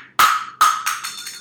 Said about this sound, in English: there goes a shot glass.